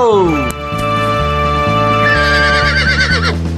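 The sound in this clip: A horse neighing, urged to gallop, with a loud, wavering whinny rising out of a steady, rapid rhythmic pulse that runs throughout.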